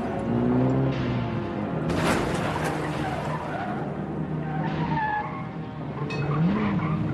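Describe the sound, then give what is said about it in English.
Cars brake and skid in heavy traffic on snow, tires squealing in wavering, whining tones over a steady rumble of engines and road noise, with no voices. “The cars are starting to brake. Cars are starting to turn away out of the skid. Out of the... No. Into the skid. Turn into the skid.”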